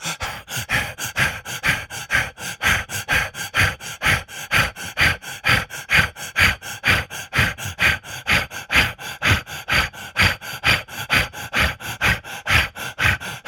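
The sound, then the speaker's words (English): Rapid, forceful breathing during a guided breathing exercise: many short, sharp breaths pumped out at a fast, even rhythm, each a strong huff of air, repeating steadily and loudly with no talking over them. “Release the breath. Again, breathe in and out of the root.”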